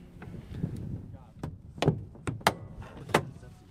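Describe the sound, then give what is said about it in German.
A two-seat ASK glider's canopy is closed and latched before a winch-cable launch, giving a few sharp clicks and snapping thuds over a low, murmuring background. “Haube müssen wir jetzt schließen und verriegeln, dann geht's los.”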